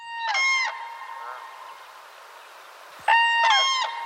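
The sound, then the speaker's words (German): Common crane calling: loud, harmonic trumpeting calls in a few bursts, with a fainter call between them and a quiet pause before a final double call. “Warte mal ganz kurz, der Kranich, den hätte ich ja für uns. Den hören wir mal uns an.”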